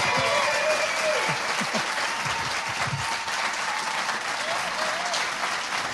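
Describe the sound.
A TV talk-show studio audience applauds to welcome a guest. The clapping is steady and full, holding at an even level for the whole stretch.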